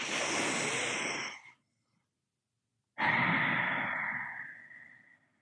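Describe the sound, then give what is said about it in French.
Deep breathing from a person lying down to relax: two long, loud, airy breaths separated by about a second of silence, the second fading slowly away. “Détendez-vous. Ouais. Ouais. Prenez quelques grandes respirations.”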